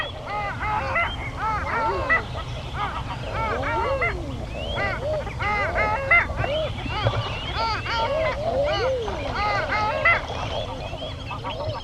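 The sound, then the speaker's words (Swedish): Eider ducks calling, the female's soft guttural clucking mixed with the males' crooning calls and long-tailed duck calls, forming a dense chorus of many overlapping rising and falling calls throughout. “Och så måste vi ju nämna ejderhonans fina, lite gutturala skrockande också. Det är lika karaktäristiskt som hanens rop.”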